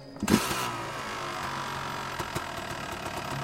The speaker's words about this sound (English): We climbed onto the bike, started it.